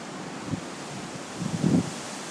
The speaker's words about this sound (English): Wow. Yeah. Wicked wind.